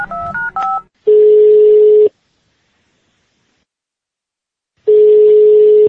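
Telephone keypad tones as a number is dialed: a quick run of short beeps of differing pitch, then two long, steady ringing tones separated by a stretch of silence.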